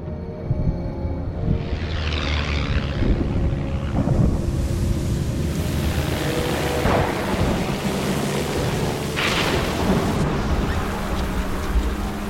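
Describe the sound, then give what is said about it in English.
Wind and rain roar around a plane flying through a thunderstorm near Newfoundland, a loud steady rushing noise with a few deep rumbling thunder crashes. “Lightning flashes around the plane, which is buffeted by wind and rain.”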